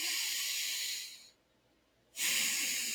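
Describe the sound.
A deep belly breath, soft and airy: a long hissing rush of air, a short silent pause, then a second strong breath begins.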